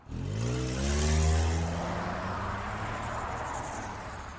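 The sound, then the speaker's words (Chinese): A car engine starts and drives off: a loud rev climbs in pitch over the first second and a half, then settles into a steady engine drone. “牛寿杰帮我把车门关上，然后发动了车子。”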